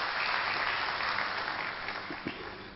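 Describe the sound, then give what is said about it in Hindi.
Audience applause welcoming a professor about to speak on positive thinking, a dense, steady wash of clapping that eases slightly toward the end. “तो हम एक बार करतल ध्वनि से इनका स्वागत करेंगे।”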